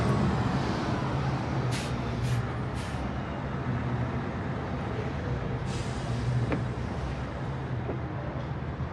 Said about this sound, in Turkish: Perona üstünde gülen yazan beyaz renk bir otobüs yaklaştı.